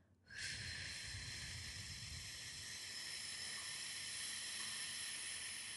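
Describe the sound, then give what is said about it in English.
Slow, controlled exhale through pursed lips, as if blowing through a sipping straw during a mindful breathing exercise. A steady, airy hiss starts abruptly and holds evenly for over five seconds, alone and without talk. “So inhale. Pause. And then exhale through that straw.”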